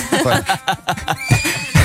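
A horse neighs in a loud, quavering whinny of rapidly pulsing, wavering tones that repeat through the short clip with no pause.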